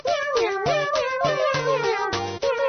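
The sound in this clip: A human voice imitates a cat meowing, giving a quick series of nasal, tuneful meows of moderate loudness, each one wavering in pitch and following closely on the last.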